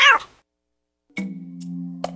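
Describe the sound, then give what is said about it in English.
Cats meowing in a comedic skit after a musician plays: a short, loud, high meow opens. After about a second of silence, a long, steady, lower-pitched cry holds to the end. “Hey, where'd all these cats come from?”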